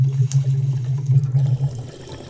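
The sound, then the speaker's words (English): Water bubbles and gurgles in a bong during a hit, a steady low burbling that runs continuously for nearly two seconds before cutting off. “Let's start this podcast off with a bong hit!”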